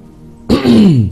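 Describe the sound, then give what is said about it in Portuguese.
Someone with a hoarse voice and phlegm in the throat clears it once after a brief quiet moment, producing a loud, rasping, low-pitched rumble that fades out within about half a second. “Perdão, estou com um pigarro na garganta, está incomodando aqui, né?”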